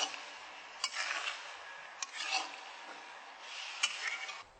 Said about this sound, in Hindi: इसे अच्छी तरह से मिक्स कर दीजिए